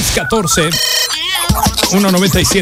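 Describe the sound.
A short electronic phone message notification tone, like a WhatsApp alert, sounds once during a retro radio mix show, ringing briefly as a bright tonal chime between voices and music.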